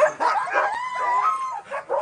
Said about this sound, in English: Barking dogs in Anchorage, Alaska.